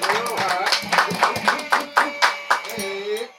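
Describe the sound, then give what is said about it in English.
Audience applause greeting a guest: sharp claps in an uneven rhythm that grow more distinct, mixed with people talking loudly over them. “Make some noise for Miss Gina Views.”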